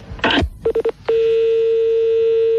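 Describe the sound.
Telephone keypad dialing tones: three quick, evenly spaced beeps are followed by one long, steady, loud tone. A short, rough burst of noise comes just before them.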